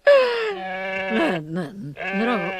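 Goat bleating: a few loud, wavering, nasal bleats with strong harmonics, the first one long and steady, the later ones shorter and quavering.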